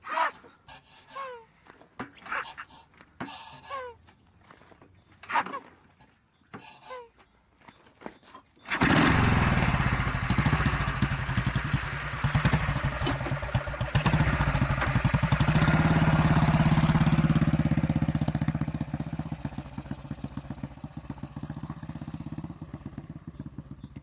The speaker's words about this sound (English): it's our great British survivor. Let the bike have the last say. Please start.